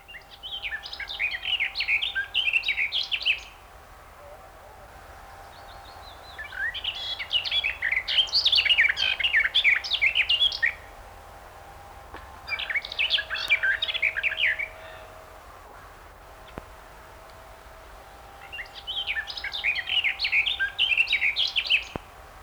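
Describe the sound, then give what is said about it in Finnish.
A garden warbler sings its long, babbling late-summer song in four bursts of rapid, high, chattering warbling, each lasting a few seconds and separated by short pauses, with no other voices. “Se on useita minuutteja kestävää lavertelua. Lehtokerttu laulaa vielä myöhään kesällä toisten lintujen jo hiljennyttyä.”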